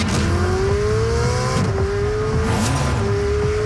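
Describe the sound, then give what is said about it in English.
A sports car engine roars with a strong, climbing tone, broken by a couple of brief gear changes as the pitch rises again, loud and continuous throughout. “Sports cars sounds like this.”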